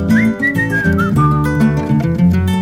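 Clear, bright whistling carries a lively tune over steady musical backing. The melody moves in sliding, sustained notes that stay loud throughout.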